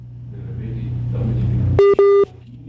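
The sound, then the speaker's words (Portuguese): Two steady, evenly pitched telephone beeps sound in quick succession as a call is redialed, following a low continuous rumble that fades in beforehand. “Vamos ver se refaz a ligação aqui com o Loivo”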